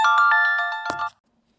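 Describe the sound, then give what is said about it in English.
A phone ringtone chirps in a quick run of bright, evenly spaced electronic pulses, then cuts off abruptly with a click into silence. “I don't know how to turn off the phone here,”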